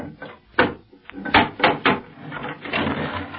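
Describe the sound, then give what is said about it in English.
Wooden box of nails being opened: a few sharp wooden knocks and creaks in quick succession, followed by a rougher, rattling scrape that trails off. “Hey, look. There are the boxes ahead. Hop, Toy. Open one. But, gentlemen, they contain only nails. Never mind what they contain. Open it.”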